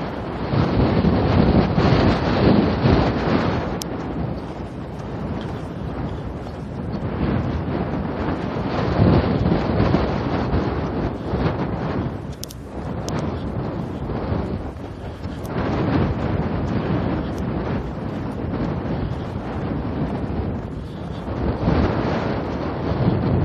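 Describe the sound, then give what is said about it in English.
Strong cold wind blasts straight into the microphone of someone heading north outdoors, a loud, steady roaring rumble that fills the whole stretch with gusty swells and no voices. “Yeah, I turned north again. I've got the wind square in my face. Straight down my neck.”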